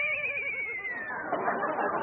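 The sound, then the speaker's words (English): A horse whinny used as a radio sound effect for a horse called Dobbin pulling a wagon: a loud, high, wavering neigh that slowly falls in pitch and fades into breathy noise. “Well, can't the horse pull for a while? I'm tired. Well, all right. Hey, Dobbin, get out of that wagon.”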